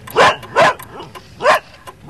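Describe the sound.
A dog barks three times, loud and sharp, with the first two barks close together and a longer pause before the third; nothing else stands out between them.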